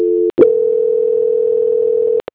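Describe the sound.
Telephone tone during a call transfer: a short steady tone, a click and brief gap, then a single long, even, mid-pitched tone lasting about two seconds, ending with a couple of clicks.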